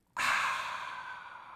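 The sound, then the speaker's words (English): Someone breathes out in one long, breathy exhale that starts abruptly and fades slowly while keeping an even hiss, quiet and alone. “whoosh. You're breathing out.”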